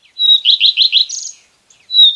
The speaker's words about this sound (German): Das hier ist auch so ein Langstreckenflieger, der in Afrika überwintert. Der Gartenrotschwanz.